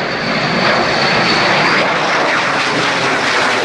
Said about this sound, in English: Here's the sound of a Growler captured in a YouTube video by a citizens group in Ebies Reserve near the airfield.